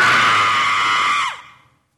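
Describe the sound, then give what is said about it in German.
A woman screams in one loud, sustained, high cry. It holds steady, then breaks off with a brief downward slide in pitch and fades out quickly. “Muss ich jetzt schreien? Ich bitte darum.”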